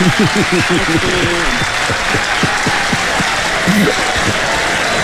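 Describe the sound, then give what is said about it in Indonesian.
An audience claps hands, producing steady dense clapping throughout while a voice talks over it, mostly in the first couple of seconds. “Kita tepuk tangan dulu.”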